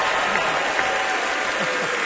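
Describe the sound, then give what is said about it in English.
Audience applause in the Grand Ole Opry House for a performer: a loud, continuous wash of dense clapping that stays even and unbroken from start to finish. “How about one more hand for Miss Faye?”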